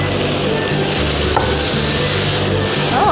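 Chicken sizzles loudly as it is stir-fried with salt and soy sauce in a pot. The crackling frying noise is dense and continuous throughout, with faint stirring scrapes and no talk.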